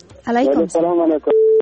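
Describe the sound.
A telephone call connecting on a radio call-in show: a steady, mid-pitched telephone tone sounds briefly at the end, after a stretch of talking.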